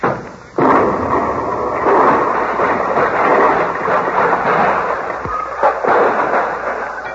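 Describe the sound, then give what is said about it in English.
A comedic explosion effect for a dropped miniature atom bomb: a sudden loud burst breaks into several seconds of dense, roaring rumble, with another jolt near the end. “Nothing special, just an atom bomb. Colonna, an atom bomb? Nothing to worry about, Hope. It's only a miniature. It won't explode. Here, I'll drop it on the floor and show you.”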